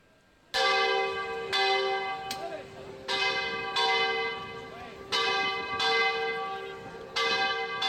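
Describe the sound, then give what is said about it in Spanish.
Church bells of the Iglesia Mayor in San Fernando ring out as the Sunday Corpus procession leaves. Loud, bright strikes repeat at an uneven pace, and each rich, overlapping tone rings on into the next. “Sonido de la Iglesia Mayor, la salida del Corpus durante este domingo”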